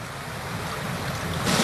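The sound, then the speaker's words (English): Tidal water rushing into a coastal inlet at Talbot Bay in the Kimberley, northwest Australia, makes a steady, broad roaring wash. It is continuous, with no breaks, and swells slightly louder toward the end. “The tide sweeps into them with amazing speed and ferocity. Talbot Bay forms part of one of the larger inlets.”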